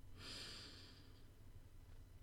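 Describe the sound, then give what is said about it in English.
A single deep breath in during a calming relaxation exercise: a soft, breathy hiss lasting about a second near the start, then quiet. “Is it okay if we take a deep breath? Breathe in.”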